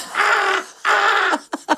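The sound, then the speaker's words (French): Bird calls: two long, loud, harsh caws followed by three short, clipped calls in quick succession. “Entre deux chants d'oiseaux, cui-cui-cui-cui-cui,”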